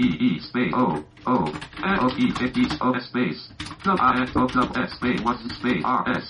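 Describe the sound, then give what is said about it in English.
Typing on a computer keyboard in Notepad on Windows 10, with bursts of key clicks coming in short clusters under someone talking. “Well, it might help if I type something first.”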